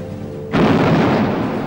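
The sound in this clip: Naval and air bombardment explosions from an amphibious landing on a coast. A low hum is cut by a sudden heavy boom that at once swells into a loud, sustained, rumbling roar.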